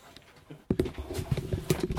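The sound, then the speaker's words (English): Footsteps walk across gravel: after a quiet start, many irregular crunching steps, moderately loud and uneven in rhythm. “So, we're out of the house, walking across the gravel... To the shed.”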